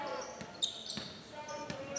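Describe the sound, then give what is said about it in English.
A basketball dribbled slowly across the timeline during a game: a few spaced, sharp thumps of the ball on the court over a steady background hum. “with it across the timeline in a slow dribble”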